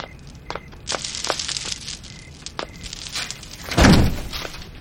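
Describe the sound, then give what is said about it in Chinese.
A door is shut with one heavy, thudding bang near the end, preceded by scattered light clicks, taps and rustling. “把门给我关上。”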